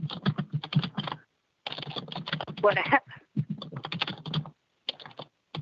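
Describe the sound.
Fingers type a message on a computer keyboard in quick bursts of clicking keystrokes, separated by short pauses and ending with a few brief taps.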